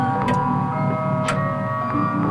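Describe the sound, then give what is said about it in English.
A clock downstairs chimes the quarter hour with steady, sustained ringing tones. A few sharper tick-like strikes stand out, loud and with no speech. “The clock downstairs chimes out the quarter hour,”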